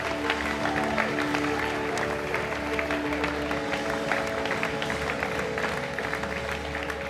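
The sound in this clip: A church audience in Perth, Australia, stands and applauds to welcome a guest pastor. Dense, steady clapping continues throughout, mixed with crowd noise.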